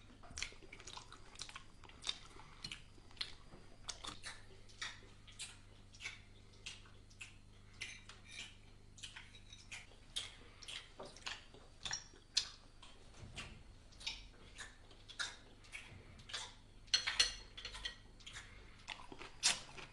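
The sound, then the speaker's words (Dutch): Loud open-mouthed chewing of food at a family meal table: wet smacking, squishing and clicking mouth noises repeat irregularly and quickly throughout, with no talking. “En één iemand verpest dan de sfeer door lekker zijn gang te gaan door het voedsel in zijn mond lekker te laten zien. En hierbij maakt diegene dan ook nog een geweldig geluid.”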